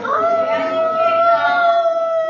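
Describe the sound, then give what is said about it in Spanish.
A person imitates a wolf's howl during an animal-sounds call-and-response game: one long, loud voiced note that rises briefly at the start and then holds steady. “¿Quién es ese? El lobo. ¿El lobo? ¿Cómo hacen los lobos?”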